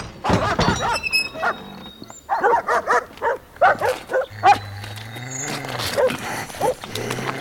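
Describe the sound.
Several pet dogs bark in many sharp, loud bursts that come in quick runs, with brief gaps between the outbursts and no clear talking.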